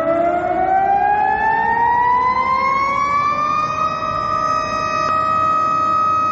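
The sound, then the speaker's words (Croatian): Sirens sound across Belgrade at noon for a commemorative minute of silence: a loud, continuous wail that climbs slowly in pitch over several seconds, then holds steady, with no voices. “Tačno 12 sati u gradu su se oglasile sirene i održani minut ćutanja za ubijene i prognane, javlja Zoran Glavonjić”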